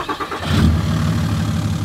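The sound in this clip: Car engine while driving: a steady, low, mid-pitched rumble that rises slightly in strength after a brief opening and then holds constant, with no voices.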